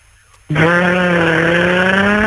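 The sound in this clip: A voice imitates a Porsche car engine with a loud, buzzing drone that starts abruptly after a quiet moment, holds steady and climbs slowly in pitch, like an accelerating engine.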